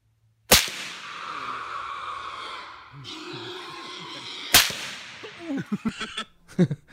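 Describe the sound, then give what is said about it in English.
Hunting gunshot striking a giant animal in the neck: a sharp, loud crack, then a long sustained scream, then a second sharp crack followed by a few short, uneven thumps. “So what you hear there is a shot 12 inches back on its neck, and that scream shook the ground. That was a giant animal.”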